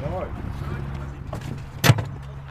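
Someone climbing into a golf cart: a steady low hum with faint rustling, broken near the end by a single sharp clunk.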